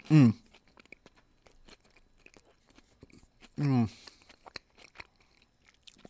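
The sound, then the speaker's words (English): Two loud crunching bites into a Kit Kat chocolate bar, a few seconds apart, with soft chewing clicks between them. “It looks like a Kit Kat. Doesn't smell like it's gone bad. Tastes like a Kit Kat. Tastes like a good old regular Kit Kat.”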